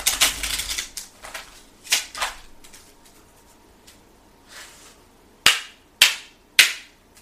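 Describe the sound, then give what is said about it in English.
Cards being drawn from a Kipper card deck: a run of soft swishes and light flicks, followed by three sharp, loud snaps close together near the end, with no talking. “let me go ahead and get four cards from the Kipper deck right quick. See where we're at. I'm going to get these cards.”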